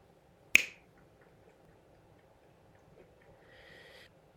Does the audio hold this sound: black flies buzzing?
no

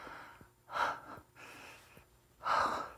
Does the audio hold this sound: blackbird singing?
no

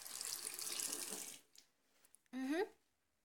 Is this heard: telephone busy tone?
no

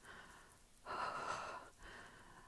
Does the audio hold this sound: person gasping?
yes

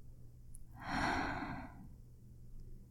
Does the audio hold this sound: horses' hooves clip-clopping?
no

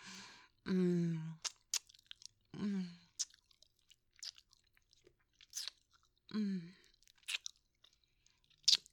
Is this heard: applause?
no

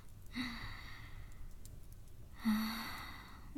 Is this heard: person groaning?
yes

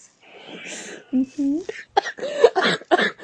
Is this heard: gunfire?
no

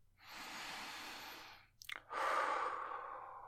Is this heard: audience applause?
no

